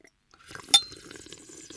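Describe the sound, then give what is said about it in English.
Rosé wine is slurped to aerate it while tasting, a brief airy, gurgling suck lasting about a second, marked by one sharp glassy clink near its start. “And suck all the air through, and then you taste the alcohol gets removed, and you can just taste the notes.”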